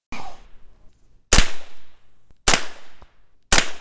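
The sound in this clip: Loud, sharp rifle shots from a gun fitted with a rifle stock and blade sight, fired from the prone position. Three cracks come about a second apart, each with a ringing decay, after the tail of an earlier shot.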